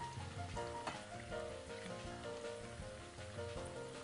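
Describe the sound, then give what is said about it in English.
Food sizzles as it fries in oil while being stirred in a pan, a steady dense crackle and hiss running evenly through the whole stretch. “We're just going to continue to stir them in the oil. The reason I keep stirring these is so they don't stick together in the oil.”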